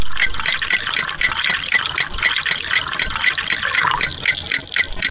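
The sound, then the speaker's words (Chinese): Tap water runs slowly into a cup in an upper-floor flat where the building's secondary water supply gives weak flow: a steady, unbroken rushing hiss that holds at an even level for the whole stretch. “我们接了这么半天了，才接满了一杯。”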